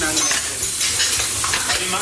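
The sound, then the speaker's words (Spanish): Sizzling of a bagel toasting lightly in a frying pan, a steady bright hiss with some stirring scrapes throughout, and no voices. “Primero, doras ligeramente el bagel en el sartén.”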